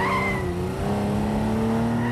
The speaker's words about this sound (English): drives them down the freeway in an open-top sports car, weaving madly from lane to lane.